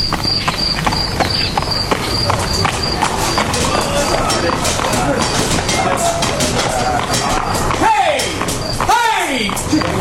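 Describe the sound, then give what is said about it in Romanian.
A rickety horse-drawn carriage approaching at a trot: steady clip-clop of hooves over a rough rolling rumble, with steady insect chirps and voices in the background. “când își făcu apariția o trăsură hodorogită ce se apropia în trap mărunt.”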